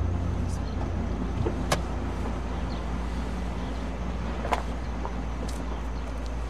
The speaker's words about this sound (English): The truck rolls to a stop in front of a single-story house.